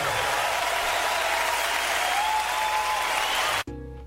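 An audience at a religious gathering applauds loudly. Dense, steady clapping fills about three and a half seconds, then cuts off abruptly and gives way to a brief tonal sound.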